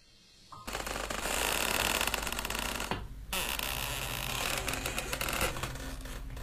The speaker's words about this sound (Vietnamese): Đột nhiên, ở bên ngoài kia, lẫn trong màn sương khói và không gian tịch mịch, có tiếng cánh cổng nó kéo cả kéo kẹt, kéo cả kéo kẹt mở ra.